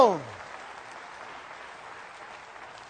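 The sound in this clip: A church audience applauds together during a morning service, a dense burst of clapping that starts loud and then settles into a steady, softer wash of claps.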